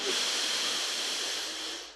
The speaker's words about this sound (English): Let's take a big deep breath into that through your nose.